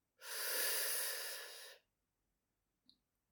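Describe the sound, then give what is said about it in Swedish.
A single long, deep breath is drawn in through the nose or mouth and down into the belly, an airy, rushing inhalation lasting about one and a half seconds. Quiet follows, broken only by a tiny faint click near the end. “tar ett djupt andetag. Ta det så långt ner i magen som du kan.”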